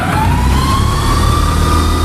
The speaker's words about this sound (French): Je vais pouvoir monter le pantographe, et là, je mets en route le compresseur.